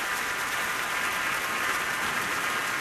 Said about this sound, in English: the audience back standing again for another ovation, and members of the orchestra are clapping as well.